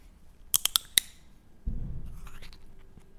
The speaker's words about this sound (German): man hört das Sample-Flaschen knacken